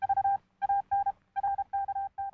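A news wire sound effect of rapid electronic beeps like telephone keypad tones, with bright steady pitches pulsing in quick uneven bursts separated by short gaps.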